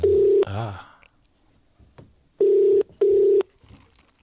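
Ringback tone of an outgoing telephone call: three steady, low, buzzing tone bursts, the first alone and the next two in quick succession after a pause, with faint clicks and rustles between them.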